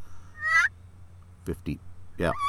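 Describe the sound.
An angry turkey gives a few loud, rattling gobbles, separated by short pauses, over a steady low hum.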